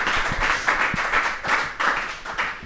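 Audience applause fills a full hall at an evening event, with dense, steady clapping running loudly and continuously throughout.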